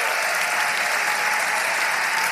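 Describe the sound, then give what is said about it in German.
Audience applause fills a live audience-participation show: loud, dense, continuous clapping that holds at a steady level from start to finish. “Applaus, Digga, Applaus.”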